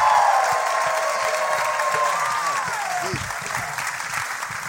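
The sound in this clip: A live audience breaks into loud, sustained applause and cheering as two comedy hosts are welcomed. The clapping forms a thick, even roar with high cheers rising through it, and it eases slightly toward the end.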